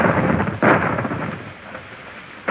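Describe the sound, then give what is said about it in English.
Booming cannon fire from a warship's guns: one loud, heavy blast rolls into a long rumbling decay, and another surge begins right at the end. “Those are the guns of the Indefatigable.”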